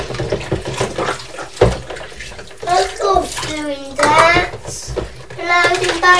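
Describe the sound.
Running water splashes steadily while cups, saucers and a tray are washed up at a table, with an adult and a child talking over the continuous wash.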